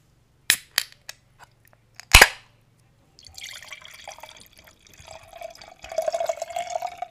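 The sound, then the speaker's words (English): Bottle of Riesling wine cracked open: a few sharp clicks and one loud pop, then a steady hissing trickle of liquid that grows louder toward the end. “But let's just crack open this bad boy. Crack open a cold one.”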